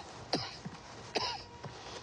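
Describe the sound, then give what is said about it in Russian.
A soldier coughs: two rough, fairly faint coughs about a second apart, each followed by a smaller throaty catch, over a steady background hiss. “Усатый солдат подходит к Евдокии, собирается снять ее тело с телеги, кашляет.”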